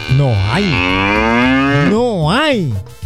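A bull mooing in one long, deep bellow that wavers in pitch, swelling up and down several times toward the end. It is loud, continuous and alone, with no talk.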